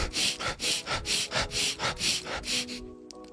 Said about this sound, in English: you want to inhale rapidly. You inhale rapidly for 30 seconds, and it sounds like...